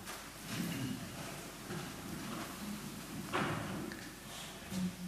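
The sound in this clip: A church audience rising from their seats for prayer: a soft, continuous rustle of shuffling bodies and clothing with scattered dull thumps and knocks, low in level and without voices.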